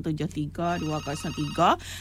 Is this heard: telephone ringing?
yes